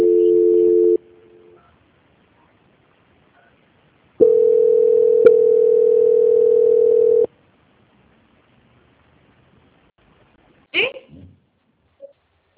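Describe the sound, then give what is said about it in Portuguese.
Telephone tones as a call is transferred: a short steady tone, a pause of a few seconds, then a longer unbroken beep lasting about three seconds, followed by a brief faint sound near the end. “Só um minutinho, tá, Má? Tá bom. Vou transferir você. Tá. Transferência.”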